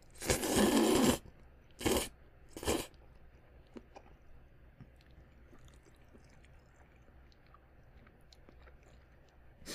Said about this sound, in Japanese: 私はカレーそうめん食べてるけど